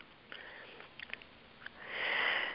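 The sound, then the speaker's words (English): A big breath drawn in: a soft, airy inhalation that swells toward the end, following a few faint clicks in otherwise quiet surroundings. “Okay, so we take a big breath in.”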